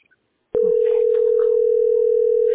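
Telephone dial tone from a phone set to auto-redial: one steady, unbroken electronic tone that starts abruptly after brief near-silence and holds loud for about two seconds.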